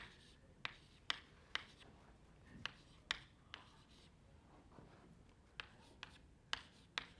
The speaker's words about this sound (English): OK, suppose you have a sequence of numbers. I'm going to draw a sequence here.